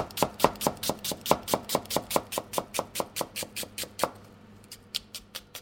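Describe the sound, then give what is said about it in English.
Knife roughly slicing an onion for an instant-noodle dish, heard as a rapid, even run of many crisp strikes on a board, then a brief pause and a few more strokes, with no talking. “So you need a piece of onion. You can just roughly slice it.”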